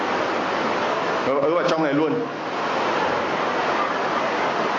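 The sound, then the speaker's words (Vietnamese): Heavy rain falls outdoors as a dense, steady hiss throughout. A voice is briefly heard over the downpour. “Mưa nữa rồi, anh chị em vào trong này luôn đi”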